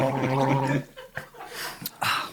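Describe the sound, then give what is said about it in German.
People gargle an alcoholic drink to taste it, starting with a loud, bubbling, throaty gurgle that ends abruptly, followed by a few short breathy bursts and laughter. “Beim Gurgeln schmeckt es tatsächlich mehr. Ehrlich? Ja. Ja, komm dann. Aber dann bist du auch schneller blau. Dann gurgeln wir alle, komm.”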